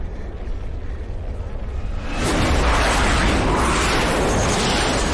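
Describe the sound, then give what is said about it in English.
An earthquake rumbles by a rocky cliff beside a highway; a low, steady roar suddenly swells into a loud, broad, sustained rumble that continues to the end. “in Zoe's memory, the rocky cliff by the highway continues to rumble. Mom, it's an earthquake.”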